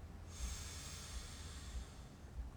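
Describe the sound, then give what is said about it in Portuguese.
A slow inhale through the nose during a relaxation breathing exercise makes a soft, steady, airy hiss that lasts over two seconds, faint and alone. “Inspira pelo nariz. Solta pela boca. Inspira pelo nariz.”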